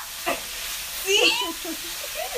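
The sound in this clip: Oil sizzles in a skillet, a steady hiss running beneath people talking.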